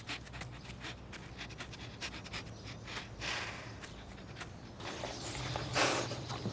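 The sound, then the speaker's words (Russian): A large black dog gets up, walks to a central door and sniffs at its threshold, producing steady, rapid, faint panting with many soft snuffling puffs and light movement sounds, growing slightly louder near the end. “Собака встает, идет к центральной двери, обнюхивает порог.”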